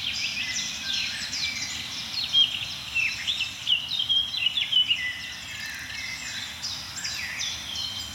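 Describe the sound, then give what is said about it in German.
A blackcap, a warbler, sings faint, quick, high twittering and warbling phrases over a steady low background hiss. “Die ein oder andere Grasmücke ist auch dabei, Mönchsgrasmücken vor allem jetzt.”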